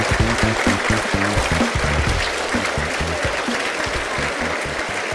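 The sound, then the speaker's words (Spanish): Emotional applause rises from an assembly audience after a theatre company's performance at a municipal campsite in Capilla del Monte, a dense, continuous clapping texture that stays loud and steady throughout. “Los asambleístas de todo el Valle de Punilla, que se han reunido en Capilla del Monte, aplauden emocionados.”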